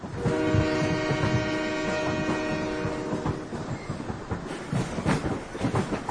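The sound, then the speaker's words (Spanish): A freight train carrying migrants across Mexico from south to north sounds its loud, chord-like horn for several seconds, then gives way to rumbling, clattering wheels and rolling noise. “Esto que van a, que vais a oír se llama La Bestia. Es el tren de los desconocidos, el devora emigrantes, el tren de la muerte.”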